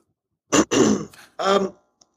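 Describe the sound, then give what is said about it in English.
A person who is under the weather clears their throat in a few rough, guttural bursts separated by short pauses, with no other talk. “I'm still clearing my throat.”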